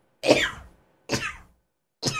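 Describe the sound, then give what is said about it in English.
A person sneezes three times, each a short explosive burst, in a slow, evenly spaced series likened to a machine gun. The last burst is cut off at the end. “That's how I sneeze. That's how you sneeze. It's like a machine gun, but slow.”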